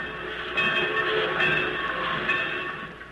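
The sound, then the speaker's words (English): Trains in a busy railroad yard make a continuous loud rumble and clatter, with a sustained whistle-like tone running through the steady industrial din and no talking. “Everywhere you can hear the busy hum of industry in the sawmill, in the railroad yard,”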